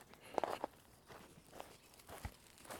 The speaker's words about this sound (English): I'm walking down this trail